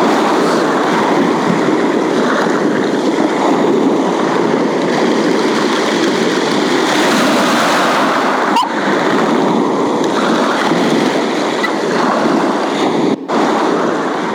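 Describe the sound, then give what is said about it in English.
Sea waves breaking on a shingle beach make a steady, dense hissing roar that runs unbroken throughout, with no voices. “For me, it's the sound of the sea on the shingle that takes me back to childhood.”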